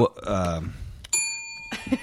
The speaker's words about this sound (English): Every time somebody says a shitty word that you're not supposed to say on the radio, he can hit the bell.